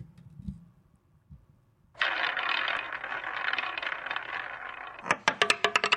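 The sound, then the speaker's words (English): A prize wheel spins with a steady, rattling whir for a few seconds, then breaks into a run of separate sharp clicks. Faint soft thuds come before the spin. “fire up that wheel”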